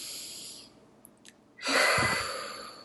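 A person takes a deep breath: after near silence with a couple of faint clicks, a loud breathy rush swells up suddenly and then slowly tapers off.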